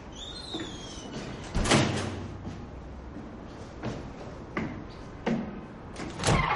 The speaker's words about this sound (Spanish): cruza una puerta dorada, abre otra blanca